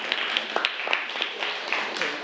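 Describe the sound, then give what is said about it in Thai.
Students in a class clap for two classmates: scattered, uneven hand claps over a steady wash of crowd noise, moderately quiet throughout. “โอเคอ่ะปรบมือนะครับนักเรียนปรบมือเพื่อนทั้ง2คนหน่อยนะครับ”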